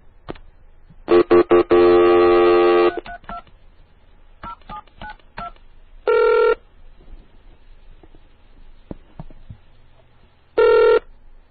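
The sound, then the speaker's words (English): Touch-tone telephone dialing of a phone number on a dial-up line: a quick run of sharp, loud tone beeps, then scattered clicks, then two longer, separate tone bursts after pauses. “And I'd call Cocotte, and I'd get some really cool noises. So I'm going to call one right now.”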